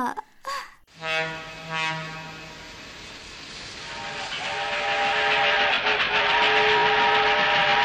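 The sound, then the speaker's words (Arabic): A fast train sounds its whistle: a few sharp bursts lead into a long, steady, tonal whistle, while a rising rumble of rolling wheels swells and grows louder to the end. “يلا نركب هذا القطار السريع”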